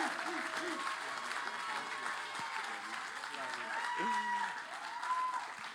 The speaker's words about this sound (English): Can we just give a warm welcome for Pastor Taylor Jensen in the house?